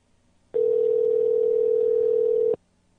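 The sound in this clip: A single telephone ringback tone as a call rings out, one steady mid-pitched buzz lasting about two seconds that starts and stops abruptly, with near silence on either side.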